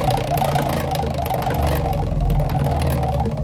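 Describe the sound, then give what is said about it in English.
A prize wheel spins during a radio birthday giveaway, its pointer ticking in a fast, dense run of many clicks over a steady whirring rumble, with no voices. “Let's spin that wheel.”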